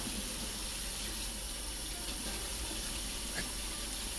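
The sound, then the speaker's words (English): Tap water runs steadily while dishes are washed and scrubbed in a sink, making a constant, even rush with no clear breaks. “Because, look, there's stuff stuck on here. I'm trying to wash it off. Scrub harder.”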